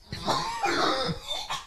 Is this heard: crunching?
no